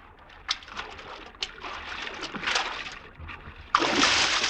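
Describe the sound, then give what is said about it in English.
Water splashing as Caesar swims, a soft churning wash broken by a few sharper splashes, then a louder, sustained surge of water near the end. “Not so godlike our Caesar when he swims.”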